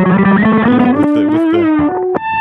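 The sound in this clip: A heavily distorted metal track plays from an early-internet MP3 file, with a harsh, buzzy tone and a sustained melody line that rises slightly, broken by a brief dropout near the end.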